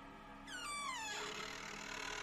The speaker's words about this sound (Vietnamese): Vừa dứt lời, tiếng cánh cửa bản lề kéo ca kéo kẹt vang lên.